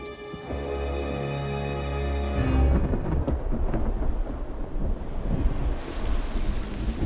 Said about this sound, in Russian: пережидает дождь, сидя в пещере.